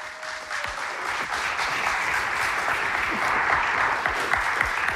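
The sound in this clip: Steady applause from a church audience welcoming a guest speaker: a dense, continuous wash of clapping that holds at an even level for the whole stretch, with no voices standing out.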